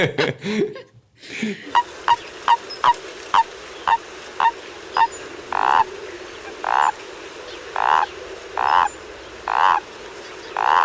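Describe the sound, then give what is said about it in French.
A small tree frog croaks many times in a steady, regular rhythm. Each call is short and bright, and the later ones are slightly longer and fuller, all set over a soft outdoor background. “Est-ce que ça a un lien avec les amphibiens? Totalement. Alors, une petite rainette, quelque chose comme ça, une petite grenouille.”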